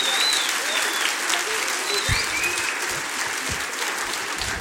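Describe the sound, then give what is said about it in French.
Dense, steady applause from a concert audience at a radio station's tenth-anniversary show in Roanne, continuing evenly from start to finish. “je veux un max d'applaudissements”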